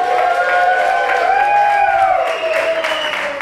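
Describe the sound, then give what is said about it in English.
A live comedy audience in Chicago cheers, whoops and claps on request, a steady, loud wash of crowd noise with sustained tonal whoops over scattered applause throughout. “We are recording this, and therefore I'm going to ask all of you to make some sort of noise so people know I'm not insane.”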